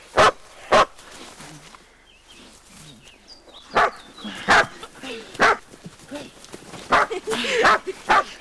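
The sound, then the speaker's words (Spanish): A dog barks sharply in a series of loud, separate barks, with quieter whines and yips between them, while it chases people up a country path. “¿Qué te importa el perro? Los jóvenes corren camino arriba seguidos por el perro.”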